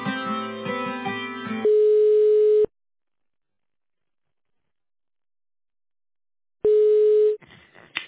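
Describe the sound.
Telephone line tones while a call is transferred: a brief melodic phrase, then a steady mid-pitched tone, a long silence, and the same tone again before faint line noise.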